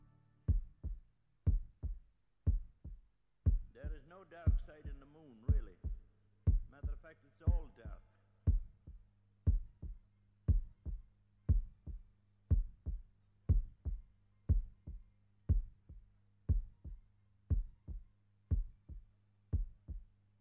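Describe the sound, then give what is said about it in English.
Heartbeat closing a rock song: many steady, low thumping beats at roughly one-second intervals over a quiet low drone, with a faint voice murmuring briefly early on. “So right back to the heartbeat.”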